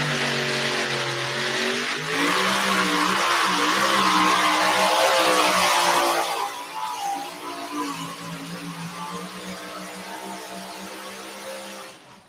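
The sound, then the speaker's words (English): Roar of a pulling tractor powered by two 14-71 supercharged, alcohol-injected Chrysler Hemi engines at a tractor pull, a loud, sustained droning howl with wavering pitch that later drops to a lower, quieter rumble. “This one used to have three blown Chevys. Now it's got two 1471 supercharged alcohol injected Chrysler Hemi.”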